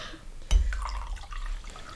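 A drink poured from a labelled bottle into glasses, heard as a short knock and then a faint, low, steady gurgling stream that runs on to the end.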